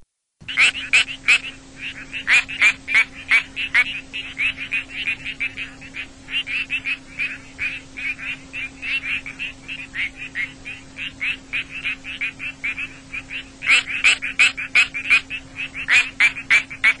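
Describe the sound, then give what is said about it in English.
Calls of the quacking frog, Crinia georgiana: many short, pulsed, duck-like croaks in rapid, uneven bursts that continue throughout, above a steady low hum. “That was our dear, dear friend, the species, now I'll try to pronounce this correctly, Crinia georgiana,”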